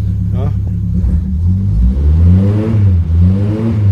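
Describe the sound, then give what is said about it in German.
The 1951 Ford Taunus car's engine revs with a deep, full-toned rumble. Its pitch climbs, dips and climbs again under a steady, loud drone. “stolzer Besitzer eines Buckeltaunus aus dem Jahr 1951 mit seinem bezwingenden, volltönenden Klang.”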